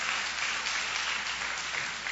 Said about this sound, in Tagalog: Pwede ba palakpakan natin ang Panginoong Jesus sa kanyang pag-ibig sa atin?